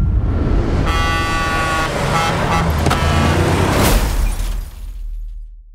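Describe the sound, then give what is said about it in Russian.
A car runs a stop sign on a country highway and collides with a large truck: a horn blares, then a loud crash with shattering sounds breaks over steady road rumble, which fades at the end. “Мак едет по загородному шоссе домой. Мак, не заметив знака «Стоп», сталкивается с большим грузовиком.”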